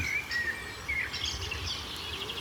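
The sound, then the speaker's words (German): Thin bird whistles at the edge of a small tongue of forest: a few brief, high, faint notes over a steady rushing background. “ein Vogel zu hören ist, auf den ich schon die ganze Zeit gewartet habe.”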